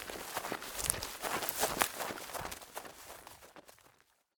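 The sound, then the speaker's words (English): Hurried footsteps through a forest: many quick, crunching steps in a steady rhythm that fade out just before the end. “Let's hurry home through the forest.”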